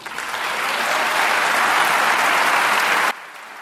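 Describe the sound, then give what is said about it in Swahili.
Dense, sustained applause from foreign delegates and journalists at UNESCO headquarters in Paris welcoming a president. The clapping swells, holds steady, then stops abruptly, leaving only a faint background. “Bwana Abbas alikaribishwa kwa kupigiwa makofi na wajumbe kutoka nchi za nje na waandishi habari waliokusanyika kwenye makao makuu ya idara ya UNESCO huko mjini Paris”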